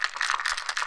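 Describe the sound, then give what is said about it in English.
Dice rattle inside a dice box that also holds weed, a short burst of dense, rapid clattering with a bright, hissy edge and no voices. “That's the sound of my dice box, which is also my weed box.”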